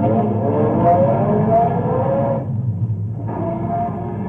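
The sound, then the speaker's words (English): A car engine drones steadily as the vehicle pulls away with the gas pressed, a low rumbling hum with a slight dip in the middle before continuing at an even level; no voices. “Get in. My foot's pressing the gas.”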